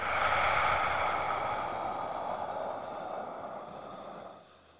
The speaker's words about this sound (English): three deep breaths inhale through the nose exhale via the mouth